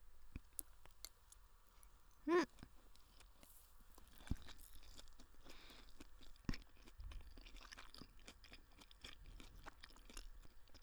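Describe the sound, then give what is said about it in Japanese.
Chewing fried rice close up: many soft, moist crunches and small clicks in an irregular rhythm, quiet overall, with a few sharper bites standing out. “チャーハン食べとるとやっぱ冷たいお水が飲みたくなるね。お腹いっぱいになってきたけど、美味しいから最後まで食べるね。”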